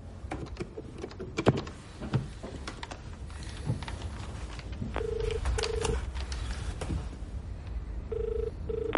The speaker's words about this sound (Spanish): En su despacho, el almirante coge el auricular de un teléfono. Marca un número.